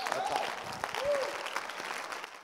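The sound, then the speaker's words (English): A church audience clapping during a sermon, a steady, fairly quiet patter of many hands with a few voices calling out faintly within it. “If you are clapping, God just remembered you.”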